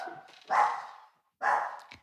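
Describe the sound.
Dog barking: two sharp, loud barks separated by a short pause, with no talk over them.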